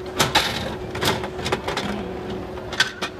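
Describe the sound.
Sharp mechanical clicks come from a coin-operated capsule toy machine as its handle is turned, several uneven ratcheting clicks over a steady low background hum.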